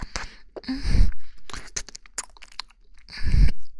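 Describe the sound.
Chewing of thick, hard, hot, slippery food: a few crunching bites and wet mouth sounds, with two louder, heavier crunches standing out.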